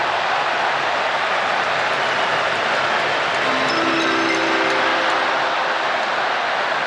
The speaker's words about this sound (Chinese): 大家通过转播方面应该不断能够听到，像列车到站的声音啊，因为另外一场比赛比分一直在变化。